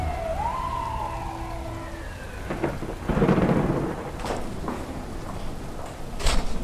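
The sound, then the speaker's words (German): Thunder rumbles over steady rain as a storm front crosses a city, with a wailing, siren-like tone near the start and a heavier swell of rumble partway through. “Vom Nordatlantik zieht eine Sturmfront über die Stadt.”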